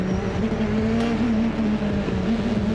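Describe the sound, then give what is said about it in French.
A turbocharged car on ultra-soft tyres accelerates hard, its engine a loud, sustained droning note with slightly wavering pitch and a rough, gritty edge throughout. “Là, j'ai changé la position pour avoir moins de temps de réponse avec le turbo. Et ça accélère encore plus fort.”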